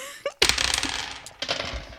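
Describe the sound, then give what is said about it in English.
Dice roll on a table during a game, a quick burst of rattling, clattering hits that slowly settles, then a second short flurry of clicks near the end. “You're going to roll your dice.”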